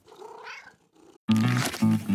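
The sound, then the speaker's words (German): A black cat at a sardine tin hanging on a fence, heard first as a soft, faint vocal murmur, then a loud, tonal cat vocalization that swells a couple of times before the end. “am Zaun hängen Sardinendosen und an einer Dose nascht die schwarze Katze der Nachbarin unversehrt.”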